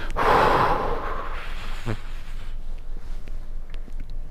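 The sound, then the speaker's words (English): Forceful exhale pushing air out of the lungs, a strong breathy rush at the start that tapers into quiet, faint rustling. “So exhale, push out all the air that you can from your lungs.”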